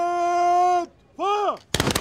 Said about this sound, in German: Wallenstein ein letzter Kanonenschlag